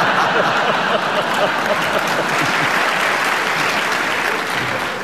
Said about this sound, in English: give you a point for it because the audience clapped